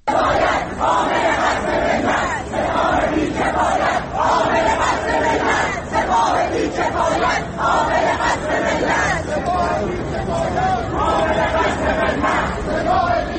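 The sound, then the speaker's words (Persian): University students in Tehran chant slogans as a loud crowd, their massed voices shouting in a steady rhythm without pause. “به بخشی از صدای شعارهای دانشجویان در دانشگاه‌های تهران گوش می‌کنیم.”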